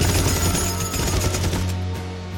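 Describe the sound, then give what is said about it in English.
Heavy machine gun fire in a film scene as troops fire down on civilians in a courtyard: a dense, loud, unbroken roar of rapid shots that holds steady for the whole stretch. “Down below, the troops blast the civilians with a heavy machine gun.”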